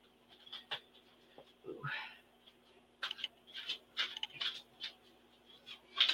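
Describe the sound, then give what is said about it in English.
A deck of reading cards is handled and shuffled, producing many crisp, papery snaps and taps in uneven bursts over a quiet, faint hum. “Let me get my cards here.”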